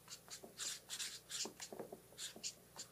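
A pastor writing the words "pastor's job": many short, scratchy pen or marker strokes in quick bursts with brief pauses, faint and without talk.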